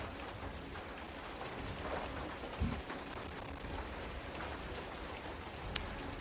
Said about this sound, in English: It's just the wind and rain make it difficult to do things.